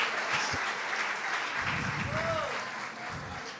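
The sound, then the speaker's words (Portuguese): Applause for actors: steady, even clapping that holds throughout, with voices mixed in. “Salva de palmas aos nossos atores, em nome de Yeshua.”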